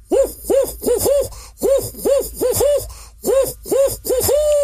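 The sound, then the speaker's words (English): A human voice imitates a barred owl's hooting: many round, mid-pitched hoots, each bending up and back down, delivered in quick rhythmic runs separated by short pauses. “like the barred owl for that you've probably heard before, that makes the hooting sound, kind of goes like this”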